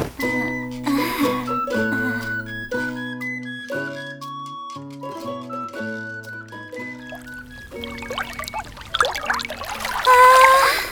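Hot spring water pours and trickles from a free-flowing source-spring bath, the splashing swelling over the last few seconds beneath a gentle melodic instrumental tune that plays throughout.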